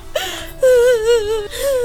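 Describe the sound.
A person cries in grief, letting out a few drawn-out, wavering moans and whimpers with a strongly tonal, quivering voice that holds fairly loud throughout.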